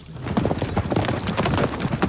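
Hoofbeats of horses galloping as riders set off during a film shoot: a dense, steady run of many rapid clip-clop strikes at even loudness from start to finish, with no voices.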